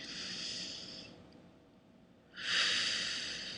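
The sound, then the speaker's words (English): A deep breath taken during a relaxation exercise: a soft, airy rush of breath, a short quieter pause, then a second, louder sustained breath. The sound stays faint throughout. “Take a deep breath.”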